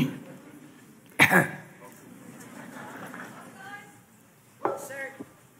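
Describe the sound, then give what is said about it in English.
A speaker clears their throat during a sermon, with two short, harsh bursts a few seconds apart. Faint, quieter vocal sounds fill the gap between them. “You'll listen to me in between the throat clearing.”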